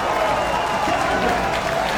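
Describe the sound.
A baseball crowd cheers and applauds after a strikeout in a Bisons game, a steady roar of noise that holds at one level from start to finish.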